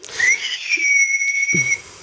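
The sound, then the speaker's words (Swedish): A steady, piercing whistle like an old-fashioned boiled-coffee pot with a small spout reaching the boil, one sustained high tone with a fainter overtone, held for about a second and a half, with faint low knocks around it. “Och när kaffet var kokade färdigt, så då pipade det. Just det. Vissla.”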